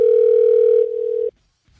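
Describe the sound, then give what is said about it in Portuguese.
Telephone ringback tone heard while placing a call: one steady, continuous pitched beep lasting just over a second, dropping slightly in loudness partway through, then cutting off to silence. “Tamo ligando aqui.”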